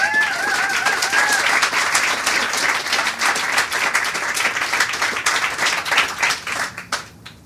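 A crowd applauds to welcome a memoirist about to give a reading. The clapping is loud and sustained, then thins out near the end.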